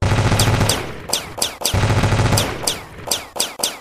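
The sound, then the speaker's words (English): Machine gun fire in repeated rapid bursts, loud and sharp, with short pauses between volleys and thin whining tails trailing many of the shots. “Shoot it. Unload everything we've got until it goes down.”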